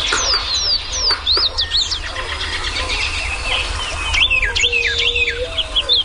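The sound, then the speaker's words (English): Several birds singing together in early spring, with overlapping whistled and chirping songs, some rising and falling, over a constant low rumble. “the serenade of birds early in the spring when birds are first returning and begin setting up territories is as good or better than any place I've heard anywhere in the country”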